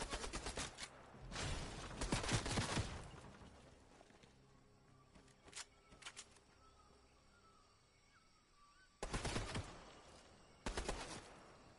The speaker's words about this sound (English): there's somebody behind me trying to shoot.